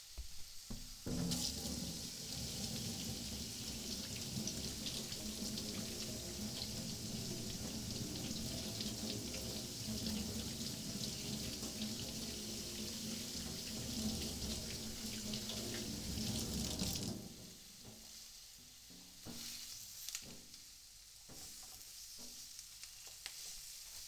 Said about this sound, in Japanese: 手を洗ってからですよ。当然です。